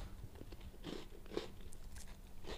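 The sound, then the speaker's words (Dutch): Someone bites off a corner of a piece of food, producing faint crunching bites and soft chewing in a few quiet bursts over low background noise. “Dus wat ik ga doen is, ik neem een hoek, ik bijt ervan.”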